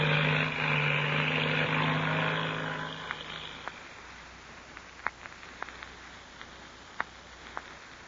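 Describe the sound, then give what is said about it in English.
Engine drone of a black two-seater airplane taking off from a dried lake bed: a loud, steady propeller roar that fades away over about three seconds, leaving near silence broken by a few faint scattered clicks. “Patsy Donovan and the Mexican boy Pebbles, listen to the takeoff of the black two-seater. And then, when the sound of the engine had faded in the distance,”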